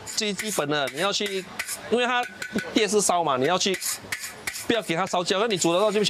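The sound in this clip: A metal ladle and scoop clatter and scrape against a pan while food is stirred over electric heat, making rapid, uneven metallic knocks with voices talking throughout.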